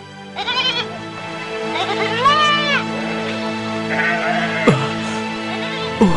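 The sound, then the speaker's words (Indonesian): A herd of goats bleating, with a few loud, wavering, quavering bleats that rise and fall in pitch and overlap one another over a steady background. “Kemudian kambing itu berkembang biak hingga sebanyak ini. Maka seluruh kambing ini adalah milikmu.”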